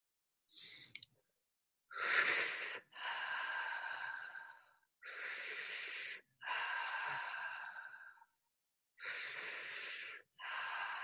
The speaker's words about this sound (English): So it's a soft yet powerful inhale and then a gentle release, like gravity is just pulling the breath from you. It looks something like this.